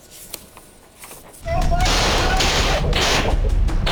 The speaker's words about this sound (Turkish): Biri ateş etti, diğeri o anları kaydetti.